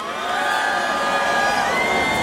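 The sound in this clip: A festival crowd roars and cheers at the Tomorrowland Winter Edition electronic music event. The sustained, loud wash of voices holds steady throughout, with bright tonal whoops riding on top.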